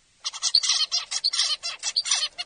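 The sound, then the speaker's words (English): A zebra finch sings its song of repeated motifs, each made of several syllables: a rapid, bright run of buzzy chirps and tweets that comes through loud and alone. “I will play for you a normal song from a zebrafinch recorded on July 25th at 1:54 in the afternoon. Zebrafinch songs are a series of repeated motifs, with each motif consisting of several syllables.”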